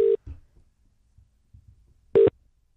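A telephone call tone while dialing a directory assistance number: two short, steady low-pitched beeps about two seconds apart, with faint low thumps in between.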